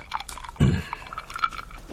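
A few quiet chewing and crunching sounds of people eating a meal of rice, scattered and irregular, with no talk.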